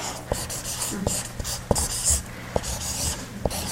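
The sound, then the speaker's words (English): A pen writes the words "innocents suffer" with soft scratchy strokes broken by several sharp taps at uneven intervals. “So there are three, I'm just going to write innocents suffer.”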